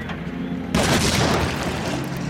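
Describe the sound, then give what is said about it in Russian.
A grenade explodes in a basement: a sudden loud blast cuts in partway through, then a dense, sustained rumbling roar slowly fades. “Один бандит бросает в подвал гранату.”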